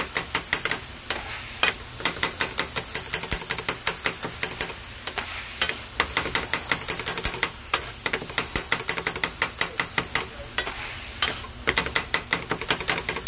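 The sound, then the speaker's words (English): Onions seasoned with black pepper are stirred in a frying pan at a deli counter, a rapid, busy run of many scraping utensil clicks over a steady sizzle. “take some black pepper. Right, and then mix it all up.”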